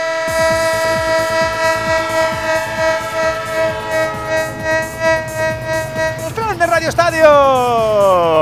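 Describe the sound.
A train's horn sounds in long sustained tones over a rhythmic chugging of wheels on rails. Near the end the horn's pitch bends downward as the train passes, and the rolling clatter grows louder.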